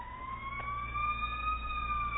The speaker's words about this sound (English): Let me wait till Sierra Madre's only siren in the world goes by.